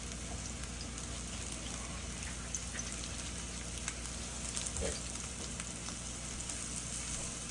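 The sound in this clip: Spicy sausage browning in a pan gives off a steady, soft sizzle, a continuous crackling hiss that stays faint and even, with no voices over it.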